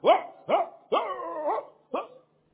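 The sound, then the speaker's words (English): Dogs at a house barking as a vehicle engine approaches: four loud, rising barks, the third drawn out into a longer wavering howl-like bark. No engine is audible. “When I'm three houses away, and they hear the sound of this engine, they will start barking.”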